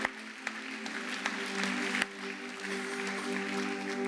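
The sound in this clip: Audience applause welcoming guests, a soft, steady patter of clapping with a few sharper claps over a constant low hum.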